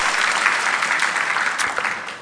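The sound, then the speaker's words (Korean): A church audience applauds a man after his special song. The clapping is dense and steady throughout and fades slightly at the end. “우리 특송한 형제에게 다시 한번 격려의 박수로 축하하십시다.”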